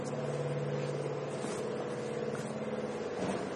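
A car engine hums low and steady while the vehicle is moved. The faint, continuous rumble has no clear revving and no voices over it.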